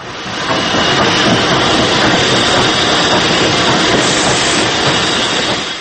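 Train arriving and stopping: a loud, continuous rumble and clatter of rail wheels mixed with hiss, steady throughout and dropping away at the very end.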